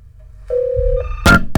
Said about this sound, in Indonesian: Oke, kita buka niki line teleponnya. Siapakah yang beruntung nih menjadi penelpon pertama? Ya, ini sudah ada penelpon.